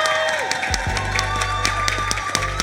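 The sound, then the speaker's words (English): A live audience claps and cheers through the whole stretch at the first live taping of a talk show. The crowd noise stays steady and fairly loud, with a sustained low tone underneath. “This episode is our first episode in front of a live audience. Y'all give it up for the live audience. Where y'all at?”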